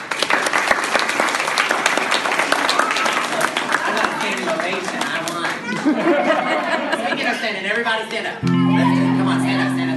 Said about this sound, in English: How did those parents respond to you? I mean, they stood up and cheered.